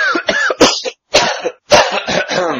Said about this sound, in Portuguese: Limpeza de garganta para a sorte.